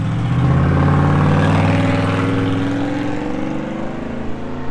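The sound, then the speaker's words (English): A loud car engine with no muffler revs on a street in Grand Junction, a rough roar whose pitch climbs steadily before slowly fading, with no voices over it. “I guess Grand Junction doesn't believe in mufflers, because about 100 people without mufflers in Grand Junction.”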